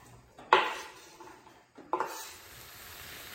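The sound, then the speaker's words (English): Sizzling as one whole chopped onion and three cloves of minced garlic go into a pan back on medium-low heat for chicken tikka masala: two sharp bursts of frying hiss with light clatter, then a steady, quiet sizzle. “now I'm ready to put the pan back on the heat, turn the heat down to medium low, and we're going to add in one whole chopped onion and 3 cloves of minced garlic.”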